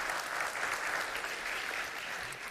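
A church audience applauds after a baptism, steady clapping from many hands sustained evenly at a moderate level without a break.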